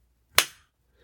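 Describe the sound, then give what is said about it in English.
A hand smacks someone's buttocks in a single sharp slap. The crack hits abruptly and decays quickly into silence. “I've been disobedient. I think you should smack my ass. And you deliver the first blow.”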